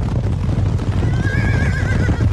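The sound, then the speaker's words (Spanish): A herd of wild horses with a wavering, high whinny rising over a loud, dense, continuous rumble of drumming hooves in the second half. “vio a una nube de polvo y a una manada de caballos salvajes acercándose hacia él.”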